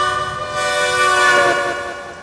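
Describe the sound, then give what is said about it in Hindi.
A steam train engine blows its whistle in one long, sustained harmonic tone that swells through the middle and eases off toward the end. “तबले engine सीटी मरलस”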